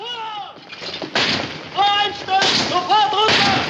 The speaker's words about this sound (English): They fire warning shots.